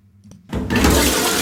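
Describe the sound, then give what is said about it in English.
A toilet flushes: faint low sounds come first, then a sudden loud rush of water that keeps roaring steadily to the end. “forget the bin. Some Brits are flushing unwanted items down the toilet.”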